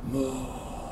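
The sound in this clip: A person breathes out slowly during a relaxation breathing exercise. It is a faint, airy exhale lasting under a second, with a brief soft hum at the start.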